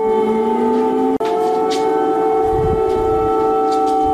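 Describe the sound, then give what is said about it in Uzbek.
Air raid sirens sound over Kyiv at night in a loud, sustained wail. The tone rises slowly in pitch and is cut off briefly once before it carries on steadily. “Ukraina poytaxtida bugun kechasi yana sirenalar ishlagan.”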